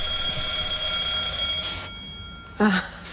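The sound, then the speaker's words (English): A fire alarm set off by a power cut gives a steady, high-pitched electronic tone that stops abruptly partway through, followed a moment later by a short, loud burst of noise. “Oh, sorry, that's the fire alarm. Every time there's one of these power cuts, it sets off the alarm.”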